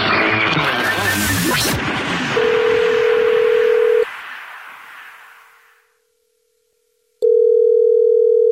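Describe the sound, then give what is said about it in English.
A telephone dials out to return a call. A brief noisy burst gives way to a steady, loud electronic tone that cuts off, followed by near silence, then the steady tone returns. “It's the Jubal Show, and you texted us at 41061, and you said you had a dirty little secret, so we're calling you back”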